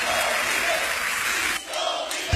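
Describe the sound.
Applause and crowd noise at a church service: a loud, dense wash of clapping that dips briefly partway through, then ends on a low thump.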